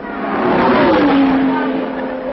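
Racing cars, Jaguars and Ferraris, roar past the pits during a road race, a loud engine note swelling to a peak and then dropping in pitch as it sweeps by over broad rushing noise.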